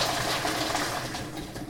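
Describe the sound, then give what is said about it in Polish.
Boiling water poured from above over a whole tomato to loosen its skin, a steady, even hissing splash that holds for the whole stretch with no talk. “Pomidor oblany od góry. Trzeba poczekać, aż woda chwilę ucieknie. Teraz z drugiej strony.”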